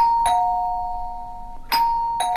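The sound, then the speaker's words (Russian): A melodic doorbell chime rings in a hallway: a few clear, bright struck tones that ring on and slowly fade between strikes, loud and alone with no voices. “Протяжный мелодичный перезвон донесся из прихожей, и я тут же подскочил, как от удара электротоком. «Дверной звонок! К нам гости!»”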